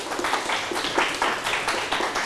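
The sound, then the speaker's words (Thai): A group of people clap their hands during a counting game, a dense, uneven patter of claps at moderate loudness. “ยิ้มปรบมือครับ”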